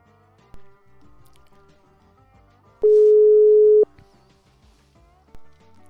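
A telephone line tone on an Italian call after the line dropped: a single loud, steady, pure electronic tone lasting about a second, sitting over faint quiet background sounds.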